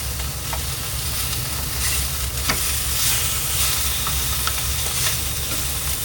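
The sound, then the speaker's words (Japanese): Beef tongue, green peppers and green onion sizzle on a grill at a standing yakiniku restaurant, a steady dense hiss of frying dotted with small crackles and pops. “今ピーマンに焦げ目がついております今日今焼いてんの牛タンなんで、まあ、そろそろいいかなって感じネギがめちゃくちゃ焦げてます”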